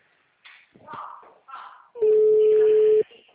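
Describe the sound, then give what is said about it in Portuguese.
A failed phone call ends in a single steady electronic beep lasting about a second. Brief voices and small sounds come just before the tone. “Tá dando ligação, falhou.”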